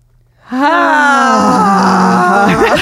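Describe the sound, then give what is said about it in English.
Several people breathe out together in a long, voiced, breathy 'ha' during a breathing exercise, starting abruptly after a short silence and holding loudly and evenly for about two seconds before tailing off. “We'll breathe out the ha together and that will be the standard of what a natural ha should be.”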